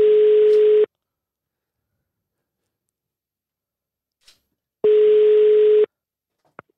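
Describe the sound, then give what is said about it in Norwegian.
A telephone ringing tone plays while a call waits to be answered: two even, single-pitch pulses about a second long, separated by a long silent gap, with a faint click near the end. “det var tidenes lengste ringing”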